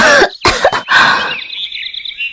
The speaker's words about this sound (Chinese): 妖媚女子捂着自己的脖子猛地咳了几声